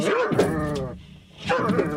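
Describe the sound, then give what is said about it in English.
A vicious muzzled Doberman growls and snarls while being grappled with in the back of a van, giving two strained, throaty bursts separated by a short pause. “In the back of a van parked outside the old lady's flat, Ken's grappling with a vicious, muzzled Doberman.”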